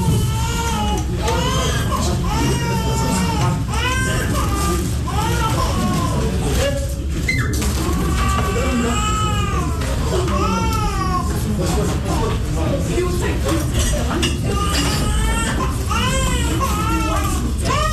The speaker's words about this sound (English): You could hear actually a baby cry in the background.